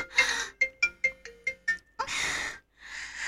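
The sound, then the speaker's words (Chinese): A phone ringtone signals an incoming call from a husband: a bright electronic melody of quick plucked notes between longer sustained tones, repeating clearly with no voices over it. “等一下啊，我老公来电话了，你不要吵我”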